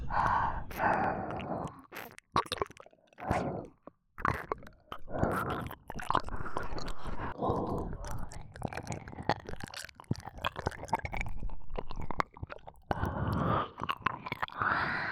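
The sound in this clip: Wet mouth sounds imitate eating right into the ear: many soft smacks, nibbling clicks and tongue noises in an uneven stream, mixed with breathy sighs, all quiet and close.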